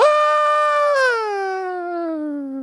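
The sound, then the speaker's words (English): A voice imitates the scream of a kid falling off a cliff: one sustained, high, loud wail whose pitch sags steadily lower while it slowly fades. “because that scream went from loud to nothing as he flew off this fucking cliff.”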